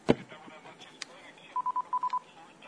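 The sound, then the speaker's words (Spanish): Telephone tones sound on a radio phone line as a call comes in: a sharp click, then six short, evenly spaced electronic beeps at a steady mid pitch, grouped in two sets of three, fairly faint overall. “En este momento tenemos una llamada telefónica que está entrando a nuestro número.”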